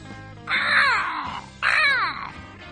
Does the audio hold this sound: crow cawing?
yes